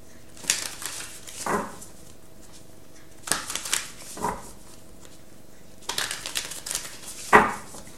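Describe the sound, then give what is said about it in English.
Tarot cards from the Wild Unknown Tarot deck are drawn and handled, giving three separate clusters of quiet papery slides and soft taps with near-silence between. “Okay, so I get three cards from the Wild Unknown Tarot, and then one card from the Money Deck by Eugene Vinitsky”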